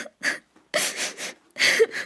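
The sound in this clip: A child cries in a few short, breathy sobbing bursts, with whimpering catches and brief quiet gaps between them. The crying is fairly faint and heard alone.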